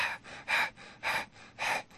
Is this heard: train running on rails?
no